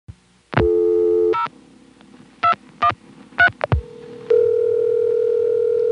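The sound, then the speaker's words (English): Dial tone on a coin phone line, then zero plus a number being dialed: a steady hum, a few short, sharp dialing tones, then another steady tone that grows louder partway through, with no voices. “if you actually try dialing zero plus a number, the call doesn't go through.”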